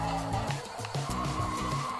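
Tires squealing as a car skids in a retro racing video game running on an emulator with automatic gear changes, paired with a buzzy, stepped engine tone that jumps up and down in pitch in quick repeated bursts.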